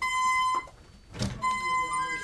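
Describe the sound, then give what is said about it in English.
A security buzzer sounds at the entrance vestibule of a Department of Corrections reentry center as people enter. It gives a steady, moderately high electronic tone that breaks off briefly around a burst of noise, then resumes over background murmur. “A security buzzer goes off as people enter the vestibule of a Department of Corrections reentry center on Chicago's South Side.”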